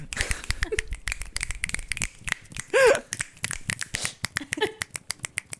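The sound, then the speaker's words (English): Many people snapping their fingers loudly, a dense, irregular patter of sharp clicks throughout, with a brief voiced sound midway. “Everybody's snapping so loud.”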